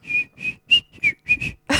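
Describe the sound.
A person whistles a string of short, clear notes, several separate bright tones with brief gaps between them, a few sliding slightly in pitch. No talk is heard over the whistling.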